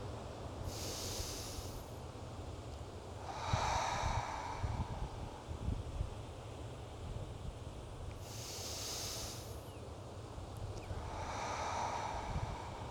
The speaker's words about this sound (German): Nehmen wir jetzt gemeinsam 10 tiefe Atemzüge. Durch die Nase ein, in den Bauch und durch den Mund wieder aus.